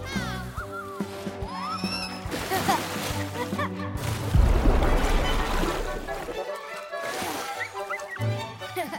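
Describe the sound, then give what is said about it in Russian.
A cartoon character dives into a lake after hopping from leaf to leaf in an animated film: a broad, sloshing splash bursts out midway, among other film sounds and a speaking voice. “Флэш, перепрыгивая с листика на листик, ныряет в озеро. Да! Вилли прыгает за Флэшем.”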